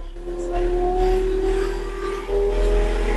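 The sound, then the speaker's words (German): Vehicle driving off as its accelerator pedal is lightly tapped: a steady droning engine hum with a clear tonal whine that climbs slightly in pitch, holding moderately loud with a brief dip before picking up again. “Wenn du jetzt das rechte Gaspedal leicht antippst, dann sollte er losfahren.”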